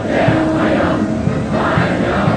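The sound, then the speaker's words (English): A large crowd chants a welcome to Trump in unison while waving Chinese and U.S. flags, loud continuous rhythmic voices throughout. “and U.S. flags in sync while chanting a welcome to Trump.”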